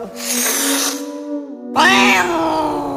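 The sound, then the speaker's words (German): A cat hissing and yowling, baring its teeth at someone reaching for it: a breathy, noisy hiss over a low sustained tone, then a louder, harsher drawn-out cry. “Cheng versuchte, eine der Katzen anzufassen. Sofort offerierte diese ein paar graugelbe, vereinzelt aus dem Gebiss stehende, aber genügend scharfe Zähne.”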